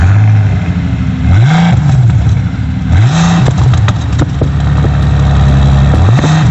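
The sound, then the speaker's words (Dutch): Revving of a 12-cylinder, 625 hp sports car engine: a loud, steady engine rumble broken by a few sharp rev blips that rise and fall in pitch, with no other sound. “Dit is een schitterende sportwagen voorzien van een 12-cilinder met maar liefst 625 pk. Nou, ik zou zeggen, start hem en we gaan luisteren.”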